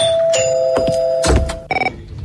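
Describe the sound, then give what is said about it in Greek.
A doorbell rings, an electronic chime giving a steady tone and then a short, pulsing second ring. “Σε αφήνω τώρα γιατί χτυπάει το κουδούνι.”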